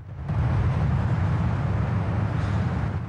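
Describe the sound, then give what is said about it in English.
A saloon car drives by in a car park, making a loud, steady low rumble with broad road noise. The rumble holds evenly for about three seconds, with no voices. “A saloon drives by.”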